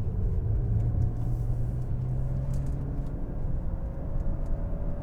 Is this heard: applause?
no